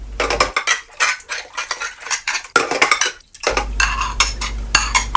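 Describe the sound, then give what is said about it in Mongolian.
Pots and pans clang and clatter against each other in a kitchen, a busy run of many loud metallic knocks and rattles, with no voices. “Гал тооны өрөөнөөс тогоо шинэ харшилдах чимээ гарлаа.”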